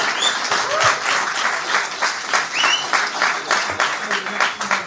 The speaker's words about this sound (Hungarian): Na most tapsolhattak.